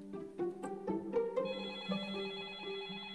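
A telephone rings faintly: several quick bell-like chimes strike in close succession, then settle into a sustained ringing tone with no voices.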